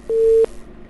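A telephone busy tone as a caller's line drops during a radio call-in show: a single steady, mid-pitched electronic beep lasting about a third of a second, then faint line hiss with no voices.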